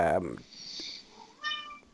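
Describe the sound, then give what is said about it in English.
A house cat meows with a drawn-out, pitch-bending call at the start, then a quieter tonal cry follows while people talk. “Whose cat is that? That's my cat. Perfect timing.”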